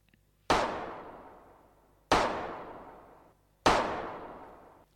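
Three rifle shots ring out, each a sharp, loud crack that trails off into a long decaying tail. They come at an even spacing about a second and a half apart, with silence before the first.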